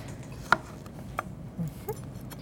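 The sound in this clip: A knife cuts a microwaved spaghetti squash in half: one sharp knock followed by a few softer thuds and scraping sounds, with no voices.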